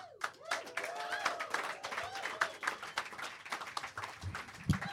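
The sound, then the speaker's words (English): Audience applause welcoming an announcer at a live show: quiet, dense clapping with irregular peaks and a few shouts rising from the crowd. “So please, put your hands together for the new announcer that we handpicked for a global audience, a man who has been around the world, the well-traveled announcer.”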